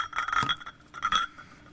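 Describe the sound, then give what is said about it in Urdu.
Glasses clinking together, two bright ringing chimes about a second apart, each a short cluster of high glassy taps that lingers briefly and fades, fairly quiet with no voices. “شیشے کے کھنکنے کی آواز ہے.”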